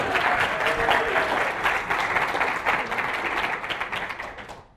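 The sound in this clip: An audience claps warmly to thank the sound technician. The steady applause is full and sustained, then fades out at the end, with no talk over it.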